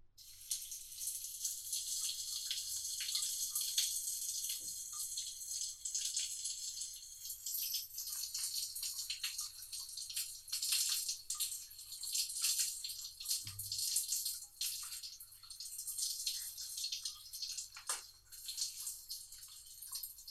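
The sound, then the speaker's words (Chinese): Water runs steadily as a mother fills a bath or takes a shower at home. The hiss is faint and continuous for the whole clip, with a few tiny clicks or drips showing through. “妈妈去洗澡了”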